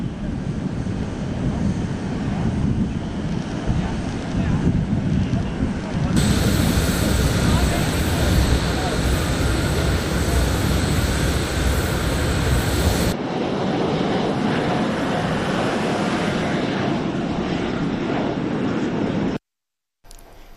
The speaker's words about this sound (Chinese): 离开开罗时，埃及总统塞西夫妇到机场送行。